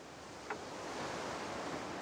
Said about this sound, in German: das Meeresrauschen hier im Hintergrund